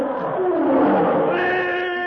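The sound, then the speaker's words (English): Roar of a huge black-maned lion: one sustained, deep, rough roar of about two seconds that stays loud throughout and takes on a brighter, more tonal edge toward the end. “Simultaneously with the closing of the door, a huge black-maned lion springs toward them with an earth-shaking roar.”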